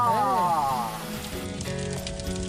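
Fish dropped into a hot wok of sauce sizzles with a dense, steady hiss that carries on for a couple of seconds, during preparation of a large holiday meal.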